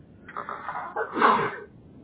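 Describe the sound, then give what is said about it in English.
A single human sneeze during a survey call: a breathy, building intake that breaks into one sharp, noisy burst, moderately quiet and alone. “I'm sorry, I had to sneeze.”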